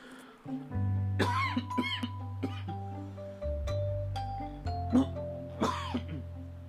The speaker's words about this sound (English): cough attack right in the middle of what I was saying